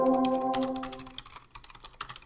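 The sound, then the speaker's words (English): Typing on a computer keyboard produces a quick, irregular run of soft, fairly faint key clicks, with a brief tonal sound that fades out in the first second. “Sorry again about the keyboard. I'm going to have to type a little bit here and there and try to get going on this draft here.”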